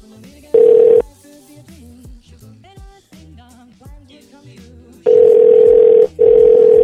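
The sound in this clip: A voicemail greeting ends in a short, steady electronic beep. A voice talks for a few seconds, then a longer, loud tone sounds, broken by one brief gap.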